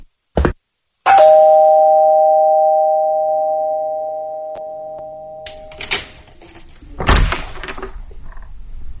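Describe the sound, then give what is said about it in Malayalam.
A doorbell rings at a flat door: one loud electronic tone sustains for several seconds and slowly fades, with a brief knock-like sound just before it and rustling, shuffling noises after. “Thana calling bell അടിക്കുക.”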